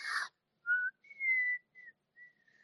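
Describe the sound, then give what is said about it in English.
A person whistles a few short, clear notes, the first lower and the rest higher. A brief breathy hiss comes before them, with quiet gaps between the notes. “I'm losing it. I whistle better when I'm laying down.”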